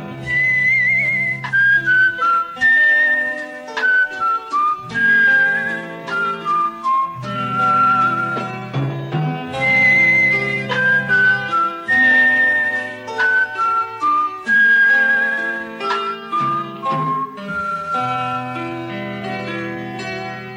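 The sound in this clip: Calm whistling carries the melody of an Iranian film song: smooth, high, sustained whistled phrases with short breaks between them, over steady low instrumental backing.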